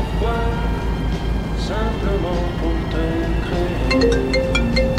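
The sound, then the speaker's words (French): A mobile phone ringtone plays repeating melodic tones over a low steady hum. Someone talks at first before the ringtone's clear, evenly spaced notes take over. “Excusez-moi, c'est ma femme, je vais devoir prendre l'appel.”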